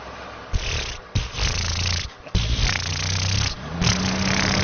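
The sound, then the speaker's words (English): Low, rumbling engine note from an old Volkswagen Beetle car, a steady throaty drone broken by a few abrupt shifts and brief dips in level. “Like this. That's exactly how the Beetle sounded.”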